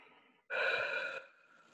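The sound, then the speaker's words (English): One deep breath, a single soft rush of air lasting under a second, faint and heard alone between stretches of near silence. “Take a deep breath.”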